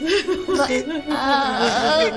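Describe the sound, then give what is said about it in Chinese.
A woman cries over her father's sudden illness, which left one arm and half his body unable to move, her voice wavering and sobbing in high, uneven pitch, broken by a brief pause near the middle. “别哭了，你哭咱爸病也好不了。”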